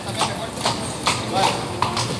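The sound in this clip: Horse hooves striking the sand of a bullring during a mounted bullfight at a fair, as the horse spins a full pirouette: a few irregular, dull thuds over a steady background.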